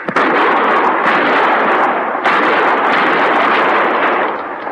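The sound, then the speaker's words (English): Rifle fire at attackers near a hut: a dense, loud volley of gunfire-like noise that continues throughout, with a few sharper cracks standing out from the steady roar. “Use your rifle”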